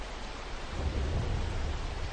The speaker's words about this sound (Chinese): 雷声大作